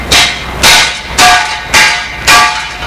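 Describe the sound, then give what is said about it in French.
Resonant metal clanging as a slab is tapped all around to locate it and loosen the dirt around it. Five loud, evenly spaced strikes each ring out briefly before the next. “il tape. Il tape autour de la dalle pour la déceler.”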